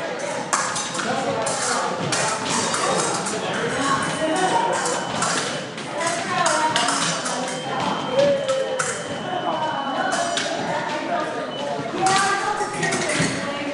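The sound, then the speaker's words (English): About forty people fence at an open fencing evening in a Seattle club. Light taps, metallic pings and dull thuds scatter throughout over a continuous hubbub of many people chatting. “You're hearing about 40 people fencing and a bunch more chatting while they're getting ready”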